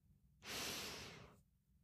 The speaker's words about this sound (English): Let's inhale